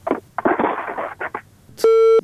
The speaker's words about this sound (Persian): ما خود گفتیم که مشکل در صدا هست، بالاخره تماس قطع شد.